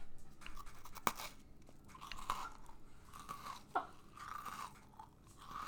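Crunching and chewing of Biscoff cookies: soft, continuous mouth and chewing noises with a few sharper crunches standing out. The whole clip is quiet, with no talk over it.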